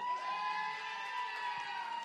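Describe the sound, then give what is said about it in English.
Audience cheering loudly for Wonder Woman, a sustained roar of crowd voices with whoops and shouts that holds steady for the whole moment. “All right, everybody. Wonder Woman, cheer.”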